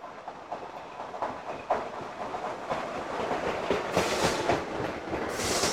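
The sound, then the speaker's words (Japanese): A train pulls in at a station platform, a steady rumble of wheels and rail clatter that grows gradually louder, with a brightening hiss toward the end. “ああ、来ました。電車が来ました。”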